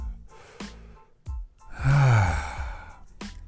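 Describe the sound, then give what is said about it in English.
Loud breathing in and out: short sharp intakes, then a long, voiced, sighing exhale that swells and fades. Quick breath noises follow, and no words are spoken. “do as I do or repeat after me. Take a breathe in, take a breathe out.”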